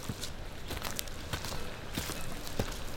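Footsteps walk outdoors over long-trodden ground, a series of faint, light steps in an uneven rhythm set against a soft, steady background hiss.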